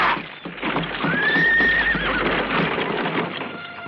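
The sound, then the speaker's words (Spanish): A horse gives a loud, high whinny midway as a 19th-century horse-drawn carriage sets off, with steady hoof clip-clops and carriage rumble running throughout. “Don Álvaro ordena al cochero. Siga, no se pare. ¡Siga! ¡Ya!”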